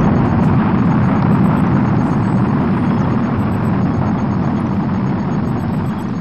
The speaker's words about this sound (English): And there she goes, ladies and gentlemen. There she goes. The Oceana, the first ship destined to travel to Mars